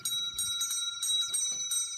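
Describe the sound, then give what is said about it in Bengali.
A bell rings at the door of a house late on a June night. Bright, metallic tones sound several times in quick succession at an even level, with no voices. “এমন সময় bell বেজে উঠল।”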